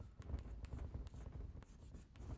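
Chalk or a pen scratches across a writing surface as a lecturer writes something down. The scratching is faint and made of many quick, irregular strokes and taps, with no talking.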